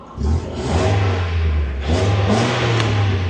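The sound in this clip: A car engine with its stock original exhaust revving: a steady, low, moderately loud drone that steps up in pitch twice, with no voices.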